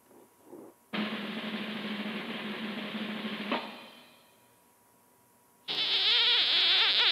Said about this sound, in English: the newest thing, of course, is the frogs being the ones who are into podcasts these days.